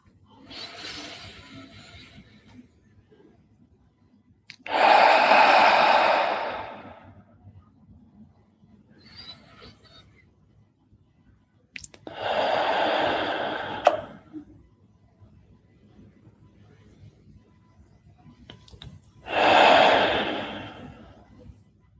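Slow, deep breathing during a loving-kindness compassion meditation: a few long, airy breaths spaced several seconds apart, with near silence between them.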